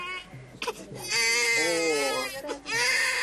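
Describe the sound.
A baby girl cries in loud, wavering wails, a few sustained cries broken by a brief catch of breath.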